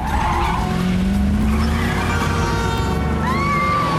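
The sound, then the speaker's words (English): Car tyres screech as a car makes a violent U-turn at the top of a slip road, over a loud, steady engine roar. A sharp, rising squeal stands out near the end. “Carter reaches the top of the slip road, does a violent U-turn, and drives down a one-way street.”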